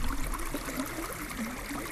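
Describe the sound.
Water of the Tiroler Bach stream in Theresienfeld flows in a steady, continuous rush with soft trickling detail and no talk.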